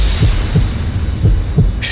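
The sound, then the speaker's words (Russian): A heartbeat thumps in low, muffled beats, a handful at a steady pace, beneath a constant rushing hiss. “Сердцебиение.”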